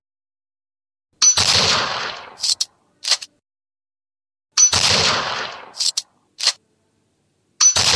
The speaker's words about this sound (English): This next one is a 30-30 rifle.